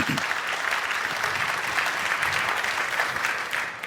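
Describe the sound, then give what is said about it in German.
Warm applause from the audience at the end of a talk, just before questions begin. Thick, continuous clapping runs at an even level throughout and thins slightly at the very end. “Ja, erstmal einen warmen Applaus, bevor wir hier irgendwie mit Fragen anfangen.”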